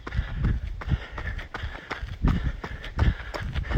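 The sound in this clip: Two children of five or six run up a long uphill slope beside a school. Their feet make a quick, uneven patter of soft thuds that continues throughout.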